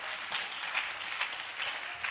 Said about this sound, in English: clap those hands